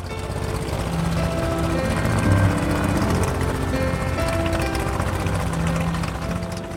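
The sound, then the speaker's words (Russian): The engine of a small propeller plane runs on a jungle airstrip as a steady, rough droning hum with a faint pulsing texture, holding a fairly even level throughout. “Мотор загудел, и маленький самолет стало трясти, как в лихорадке.”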